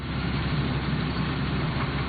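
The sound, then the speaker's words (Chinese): Engine drone of a swather harvesting machine driving through a rice field, a steady, even low rumble without breaks or voices. “王宏伟跳上了割晒机，随着机车驶过，水稻被整齐铺放在20厘米高的秸秆茬上”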